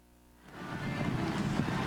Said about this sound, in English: That rain they were talking about, they weren't kidding. It is pouring down rain.